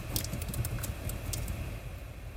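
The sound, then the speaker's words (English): A computer keyboard is typed on to enter a search for a workout shirt: a quick run of many light, crisp clicks, faint above a low, steady hum. “So, what we're going to type in is, let's say, Let's just type in workout shirt.”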